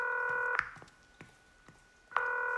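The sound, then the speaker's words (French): Telephone dialing for a call: a steady multi-tone signal breaks off into a few soft, sharp clicks, then the tone returns, loud and even. “prends mon téléphone, appelle ta fille”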